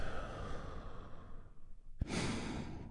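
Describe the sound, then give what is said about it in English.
A deep breath taken during a guided relaxation breathing exercise: a soft, airy inhale that tapers off, then a louder, rushing exhale released about two-thirds of the way through. “And we do that by taking a big, deep, healing breath all together. Here we go. And release.”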